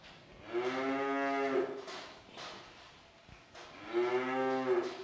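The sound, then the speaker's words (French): A Montbéliarde cow gives two long, low moos separated by a quiet pause. Each is a drawn-out, resonant bellow, heard faintly and alone. “Bon, après tout ce qu'on vient de voir, tu comprends que la Montbéliard n'est pas juste un animal, c'est un véritable symbole de la région et de son agriculture.”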